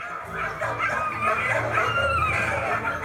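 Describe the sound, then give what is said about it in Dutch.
Several dogs bark together in an animal shelter kennel, four to six in one pen, their loud, overlapping barks and yips forming a dense, continuous clamour throughout. “Hoeveel honden zijn dat nou in dat hok? In het hok zijn het er 4 tot 6 zo te zien.”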